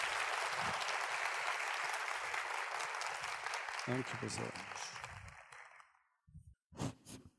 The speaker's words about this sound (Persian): هر چقدر که راضی بودید از این یک ساعت و نیم یه دست به افتخار خودتون بزنید